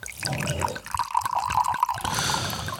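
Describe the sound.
A drink poured from a bottle into a glass, a rapid series of gurgling glugs that gives way to a brighter, splashy trickle toward the end.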